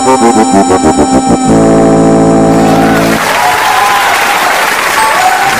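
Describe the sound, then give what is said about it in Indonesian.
Audience applause at a live humor performance: loud rhythmic music with sustained tones plays first, then gives way to a broad, steady clatter of many hands clapping that continues to the end. “Terima kasih buat tepuk tangan yang jenengan kabehan bae lah ya.”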